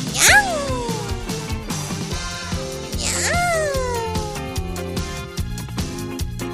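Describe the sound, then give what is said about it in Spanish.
A human voice imitates a kitten's meow, like a hoarse or old kitten, giving two squeaky falling meows about three seconds apart over steady background music. “que te sale como gatito con catarro o gatito viejillo”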